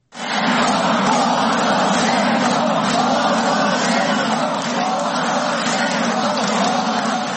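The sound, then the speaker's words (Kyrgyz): Loud, sustained shouting from a crowd of several thousand supporters at a rally for Petro Poroshenko outside the administration building, a continuous roar of many voices without breaks. “Чогулгандар ушундай кыйкырып турушту.”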